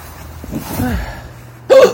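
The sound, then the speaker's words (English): A person with the hiccups lets out one sudden, loud hiccup near the end, after a stretch of softer breathy vocal sounds. “I really got the hiccups. It's been a while since I've gotten the hiccups. They're really annoying, to be honest.”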